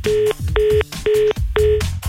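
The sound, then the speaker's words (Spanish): Telephone keypad tones as a radio host in Aguascalientes dials to call a guest back: four evenly spaced, steady beeps, each lasting about a third of a second, with brief noisy gaps between them. “Ahorita le volvemos a marcar a Ray Macías”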